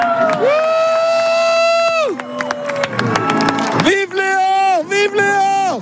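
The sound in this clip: A crowd cheers Pope Leo XIV at Lourdes, voices rising together in long, sustained chanted notes. Sharp claps and shouts scatter throughout, and a final run of shorter chanted bursts follows.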